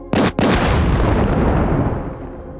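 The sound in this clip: A bomb-drop explosion sound effect: a sharp, loud opening burst breaks into a heavy, sustained roaring rumble that slowly dies away over about two seconds. There are no voices.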